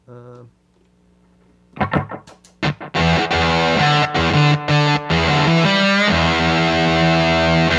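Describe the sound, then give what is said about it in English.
An electric guitar plays through a Pete Cornish NG3 gated fuzz pedal with a heavy gate. A faint note is followed by choppy staccato stabs, then loud, thick fuzzed chords that cut abruptly to silence several times. “is a Pete Cornish NG3, which is like just kind of an insane fuzz, gated fuzz pedal. So here's that.”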